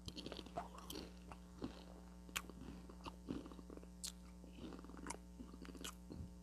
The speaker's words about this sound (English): Sorry, I got another chip. Bad taste in my mouth.